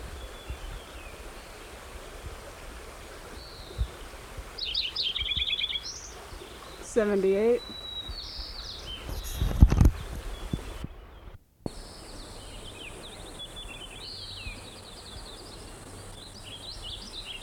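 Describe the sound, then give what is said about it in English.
White-crowned Sparrow song: a few short, high, whistled phrases with trills, separated by pauses, and a person speaks briefly between them. “White Crown Sparrow singing too.”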